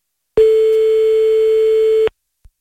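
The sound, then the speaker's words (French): Ringing tone of an outgoing telephone call: one loud, steady tone held at a single pitch for nearly two seconds before cutting off to silence. “On appelle encore quelqu'un là pour vérifier. Parfait, ça sonne.”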